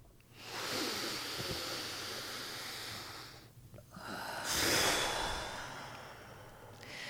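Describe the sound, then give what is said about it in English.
A deep breath is taken slowly, heard as two long, soft rushes of air separated by a brief pause, the second one louder and fuller. “let's take that moment right now. Take a deep breath.”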